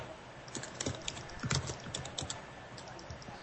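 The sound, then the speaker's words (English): Typing on a computer keyboard: many faint, quick clicks in an irregular rhythm over a soft background hiss, with occasional slightly louder key strikes. “I really enjoy hearing you type”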